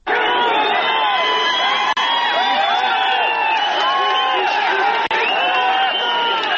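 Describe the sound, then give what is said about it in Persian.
A large crowd cheering and shouting at a public hanging at dawn, a dense, loud, continuous roar of many overlapping voices with rising and falling shouts throughout. “این صدای هلهله افرادی است که بامداد روز چهارشنبه شاهد اعدام محکوم به قتل آتنا اصلانی بودند.”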